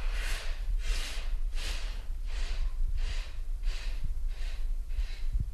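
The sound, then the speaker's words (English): A group of people breathe deeply in through the nose, making eight soft, airy rushes of hiss at a steady, even rhythm over a low rumble, with no talking. “Then you take a deep breath in through the nose and relax.”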